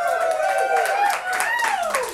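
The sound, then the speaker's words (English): An audience at a live music show applauds an opening act. Steady clapping runs throughout, with cheering voices rising and falling above it. “Can we get a huge big round of applause please for Heather Valley, who opened first,”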